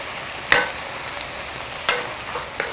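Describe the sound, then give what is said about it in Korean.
Seasoned dried radish strips stir-fried in a pan: a constant sizzling hiss, broken by a few sharp scrapes and knocks of a utensil stirring against the pan, with no talk. “이제 볶으면 볶을수록 이 색깔이 무말랭이에 스며들어요. 자, 충분히 볶아주세요.”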